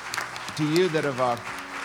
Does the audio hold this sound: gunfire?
no